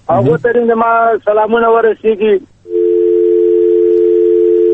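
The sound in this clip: A telephone tone sounds after a call is cut off. Speech gives way to a steady, unbroken, mid-pitched hum that holds at an even level to the end.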